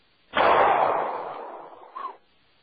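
Gunshot from a headshot in a video game, one loud, abrupt blast that decays over about a second, followed by a short, fainter sound.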